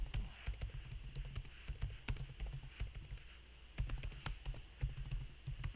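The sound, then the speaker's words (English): Typing on a computer keyboard: many quiet, irregular keystroke clicks in quick bursts with short gaps between them, over a low background hum and no voices. “I'm just right now typing up, getting you guys ready”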